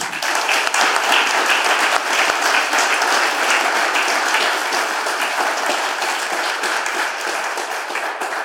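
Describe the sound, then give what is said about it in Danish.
Audience applause welcoming a guest professor onstage: dense, steady clapping fills all eight seconds without a break, holding loud before easing slightly near the end, with no voices over it. “Giv en stor hånd.”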